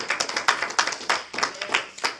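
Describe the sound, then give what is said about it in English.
A church audience claps in a steady rhythm, many sharp, evenly spaced hand claps at a moderate level. “I wish I'll just give God a good hand clap for that tonight.”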